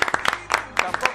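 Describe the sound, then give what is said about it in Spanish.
An audience applauds with a few sharp, scattered hand claps at an uneven pace, over a brief moment. “merece un aplauso, ¿no? Yo le quiero. Venga, va.”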